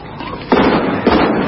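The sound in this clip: Gunfire in a radio drama as a German soldier inside a building opens fire on Russians across the way: two sharp, loud shot-like bursts, about half a second apart, over a low background.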